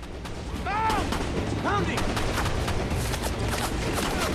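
Gunfire crackles through a battle at a river crossing where soldiers defend a bank under attack, with many loud, sharp shots coming in a rapid, dense volley over a constant rumble.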